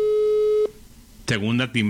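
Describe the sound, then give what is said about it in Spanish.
A telephone ringback tone on an outgoing call sounds as one steady mid-pitched tone lasting over half a second, followed after a short pause by a voice speaking. “Segunda timbrada.”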